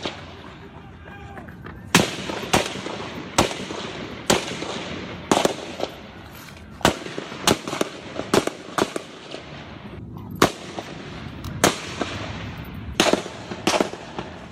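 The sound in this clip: Gunshots during a shooting: many sharp, loud cracks at irregular intervals, some in quick pairs, over a low rumbling background.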